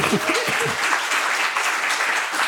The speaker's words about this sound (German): Ja, gerne Applaus.